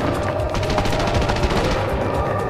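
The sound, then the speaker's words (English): Gunfire erupts in a firefight aboard a vessel as a loud, unbroken rattle of rapid shots, sustained and dense from start to finish. “Open fire!”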